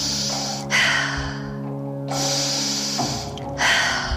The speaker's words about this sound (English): Getting ready for the big inhale and breathing in. Exhale, inhale, exhale.